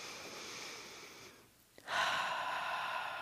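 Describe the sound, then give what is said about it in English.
A deep breath taken during a seated meditation: a soft, steady airy breath, a brief hush with a small click, then a fuller, louder breath that carries on to the end. No talk. “Take a deep breath and”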